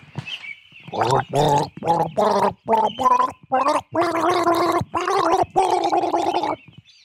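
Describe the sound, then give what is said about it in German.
Gurgling throat sounds from a man gargling flower water, voicing a melody as a string of many pitched, bubbling bursts separated by short pauses, loud and alone. “Dann werde ich jetzt mal gurgeln. Hier, ich nehme das Blumenwasser.”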